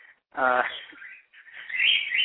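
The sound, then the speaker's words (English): A pet bird chirps quietly in a room, giving a few short tonal calls separated by brief gaps. “Your bird is actually just about drowning”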